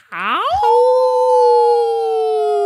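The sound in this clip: A person imitates a howl with a single loud, tonal cry. It sweeps upward at the start, then holds a steady, sustained pitch to the end.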